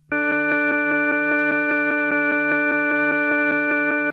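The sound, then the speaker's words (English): A monaural organ test tone for checking stereo balance: a single sustained organ note, rich in harmonics, holding steady and loud from start to finish with a faint regular pulsing. “And let's find out how a correctly balanced system sounds by playing a monaural organ tone.”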